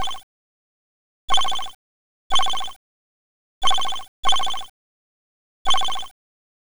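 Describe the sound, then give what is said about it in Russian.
Telephone ringing on an outgoing call: loud electronic ring bursts repeat at uneven intervals with silence between them. A partial burst at the start is followed by five more. “Я позвоню ему”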